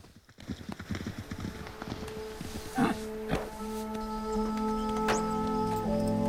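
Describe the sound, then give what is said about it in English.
Two horses gallop past near a racetrack. A quick drumming of hoofbeats opens the sound and fades after a couple of seconds, leaving a quieter steady background with a few isolated knocks. “As Channing comes over to Stripes, two horses gallop past. They both watch the horses.”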